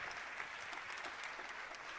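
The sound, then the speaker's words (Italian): Audience applause at a public gathering: continuous dense clapping that holds a fairly even, faint level throughout, with no pauses and no clear voices. “Ora invito Moffo Schimmenti, un applauso anche a lui”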